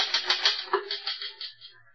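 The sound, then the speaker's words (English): A typewriter is typed on with rapid, even key strikes, many sharp clacks in quick succession that gradually grow fainter. “Very well, Sybil. Finish typing it and I'll sign it.”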